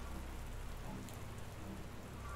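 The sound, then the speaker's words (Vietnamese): Steady rain falls in a soft, continuous hiss with no breaks or swells, heard alone without voices. “Nước mưa rơi xuống cả người khiến cho Hiếu”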